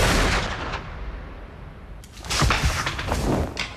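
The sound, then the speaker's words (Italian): Gunshots ring out: a loud, sharp blast opens, then after a quieter lull several more cracking bursts follow in quick succession. “Ma che cazzo hai fatto? Gli hai sparato?”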